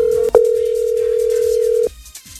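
Telephone dial tone: a steady, single-pitched hum with a brief break near the start, holding for almost two seconds before it cuts off and leaves quiet.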